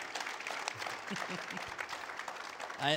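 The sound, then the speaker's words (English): Soft applause from a church audience. It is a steady patter of many hands, faint and even, and a voice comes in briefly at the very end. “Can you guys, before we pray, can we give them a round of applause for what they do?”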